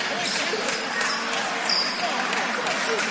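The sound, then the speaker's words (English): A basketball is dribbled out in the final seconds of a game, its bounces buried under loud, steady crowd noise. “Leverett dribbling the basketball. Over to Troy Homan, and he's just going to dribble out the game here.”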